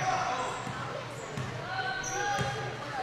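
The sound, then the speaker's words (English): A basketball dribbled on the court during a women's game, with a couple of firm bounces under an announcer's steady commentary. “Couple dribbles.”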